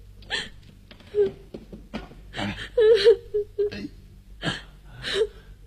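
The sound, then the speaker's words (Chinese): A girl cries in hiccuping sobs and whimpers, with a few short, uneven bursts of catching breath and wavering, high-pitched moans between quieter gaps. “哎呀，怎么又哭了？”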